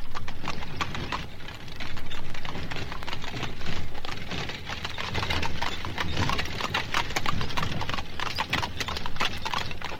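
Hooves of a horse pulling a carriage clip-clop in a quick, even rhythm throughout, many crisp beats over a continuous noisy wash, with no talk.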